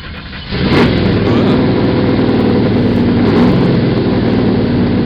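A car engine hums steadily while the car is driven slowly and carefully. A brief quiet opening gives way to a continuous, even drone that stays loud throughout.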